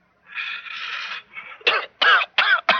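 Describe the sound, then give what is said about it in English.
A long, hissing inhale from a deep drag on a cigarette, followed by several harsh, loud coughs in quick succession. “Now, I hope you noticed I took a deep drag.”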